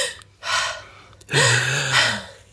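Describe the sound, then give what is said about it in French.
A deep breath: a short drawn-in breath followed by a longer, louder exhale with a faint voiced hum in it. No speech is heard. “Respirons ensemble,”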